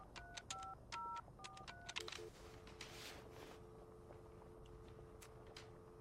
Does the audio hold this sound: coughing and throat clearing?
no